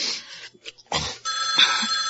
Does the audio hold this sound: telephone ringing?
yes